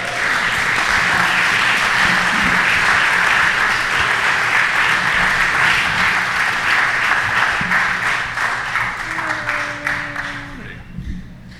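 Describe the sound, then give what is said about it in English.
Sustained audience applause at a storytelling event, loud and even for most of its length, then thinning and fading toward the end as a single voice starts talking. “Please put your hands together for Tyson Purcell”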